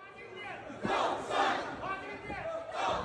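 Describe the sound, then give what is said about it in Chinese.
Faint crowd of Taiwanese expatriates chanting slogans outside a hotel in San Francisco, with rhythmic surges of many voices rising and falling in repeated bursts. “接着，在台侨们“赖清德当选”的口号声中，赖清德站到酒店正门外，向欢迎者挥手致意，并接受了台侨送上的鲜花，随后步入酒店。”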